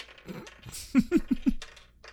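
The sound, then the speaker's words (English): Seven dice are rolled during a tabletop role-playing game, giving a quick run of sharp clattering clicks on a hard surface, about four louder hits close together amid fainter rattling. “I am rolling seven dice here”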